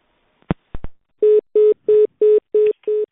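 Telephone dialed to place a call: a few clicks, then six evenly spaced, loud keypad tones, each short and steady in pitch, with no voices.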